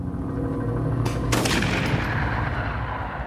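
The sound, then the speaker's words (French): A single gunshot fired during a tense standoff among soldiers: a sharp, loud crack followed by a long, rolling decay over a constant low rumble of background noise. “Ce tir, là, que vous venez d'entendre”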